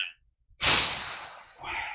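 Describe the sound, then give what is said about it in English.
One long, breathy exhale, an audible sigh through the mouth that starts strongly and slowly trails off, followed by a softer second breath at the end. “I breathed. That's my response.”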